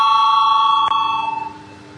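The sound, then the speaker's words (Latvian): A bell rings in a parliament chamber to call members to a vote. A steady metallic ring gets a sharper strike near the middle, then fades with a wavering tremor. “Lūdzu zvanu”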